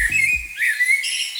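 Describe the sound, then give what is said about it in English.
Birds singing, a steady high warbling chirp that runs through the whole clip with a brief low tone at the very start. “driving along with the window down, listening to the birds singing, even if it is in the rain.”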